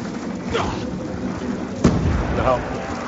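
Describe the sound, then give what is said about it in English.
A monkey bomb explodes in a zombies-mode video game, one sharp, muffled boom that cuts through steady gameplay noise. “they threw a monkey bomb, but it's actually going to be really helpful because they're next to it instead of on it”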